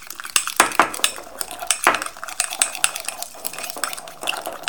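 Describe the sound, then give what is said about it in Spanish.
A spoon stirs a sweet mixture with sugar in a bowl, vigorously, producing a fast, irregular run of many bright clinks and scrapes against the bowl that carry on throughout. “Y seguimos removiendo fuerte.”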